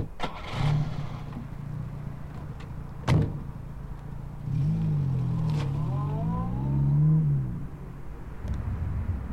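Car doors thud shut, then a car engine starts, revs up and down and the car drives off, its droning hum swelling before easing away.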